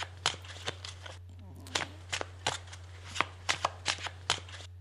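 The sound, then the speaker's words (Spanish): Playing cards are shuffled by hand in a series of short, crisp riffling bursts, about a dozen in irregular rhythm. They sound fairly faint over a low, steady hum. “Nuestro amigo y brujo barajea las cartas con toda la pasión.”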